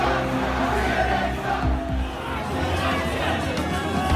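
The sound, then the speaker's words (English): A large crowd at a Trump rally in Tampa, Florida, boos and chants in a loud, dense and continuous roar of many voices that holds steady throughout. “Is a chorus of boos and other chants from this Trump crowd here in Tampa, Florida.”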